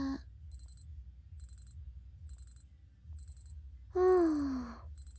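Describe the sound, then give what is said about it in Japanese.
An electronic alarm going off in five short, high-pitched beep bursts at a steady interval, fairly faint. A voice's falling sigh overlaps the last beep. “アラーム鳴っちゃいましたね。”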